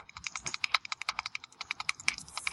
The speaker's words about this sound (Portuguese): tá dando reverb pra você, o seu clique-clique.